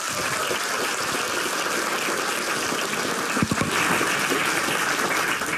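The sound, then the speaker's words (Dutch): Applause from a studio audience at a radio news program, a steady dense wash of clapping that holds evenly for several seconds, with a few louder low thumps near the middle. “Geef ze een hartelijk applaus.”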